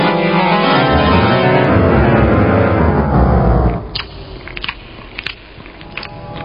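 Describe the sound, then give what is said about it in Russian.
A creature with sharp jaws chomps and chews loudly, a dense wet crunching that runs steadily for several seconds, then thins into quieter scattered crackles and clicks. “Разбудили ее чавкающие звуки.”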